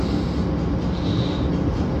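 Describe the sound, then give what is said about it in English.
A train arrives at a station, giving a steady low rumble with a faint hiss above it, unchanging in level throughout and with no voices. “Then my train arrived.”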